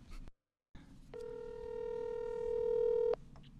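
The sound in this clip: A steady telephone line tone sounds for about two seconds during a call placed to wish someone a happy birthday. It holds level and even and is framed by brief soft noises, with no voices.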